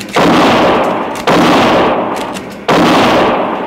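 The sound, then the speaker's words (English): Three loud gunshots from a gun fired back during a shootout on a small train rocking over uneven rails. Each sharp blast is followed by a long, slowly fading tail, with the shots spaced a little over a second apart. “The bullet struck a log beside my arm. I felt a splinter tear my cheek, and I fired back.”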